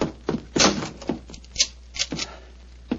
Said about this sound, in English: Follow me. Lock the door behind you.